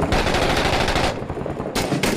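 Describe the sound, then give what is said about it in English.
Rapid gunfire from an enemy shooting at a building in the war game Six Days in Fallujah: loud, dense bursts of automatic fire that pause briefly near the middle, then start again. “There's a guy to the left shooting that building over there.”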